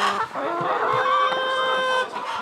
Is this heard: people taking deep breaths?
no